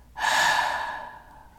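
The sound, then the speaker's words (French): A single deep breath exhaled through the mouth during a guided breathing exercise. It is a long, breathy rush that starts abruptly, holds strong, then slowly fades over about a second and a half, with no talking. “Tu vas remplir tous tes poumons d'une nouvelle énergie, d'une énergie lumineuse. Et tu vas expirer par la bouche et relâcher toutes les tensions, toutes les parts d'ombre.”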